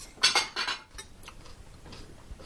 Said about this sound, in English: let's put this in some bowls. Yeah. Bowls and plates.